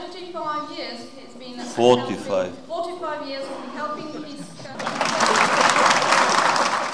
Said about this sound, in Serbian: aplauz za Tomislava Nikolića koji je korigovao prevodioca.